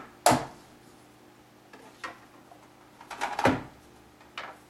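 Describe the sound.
Handling noises as a 12150 radio with a big speaker and LCD is set down and its large rear battery cage is opened: a few quiet, sharp knocks and plastic clicks, separated by short pauses.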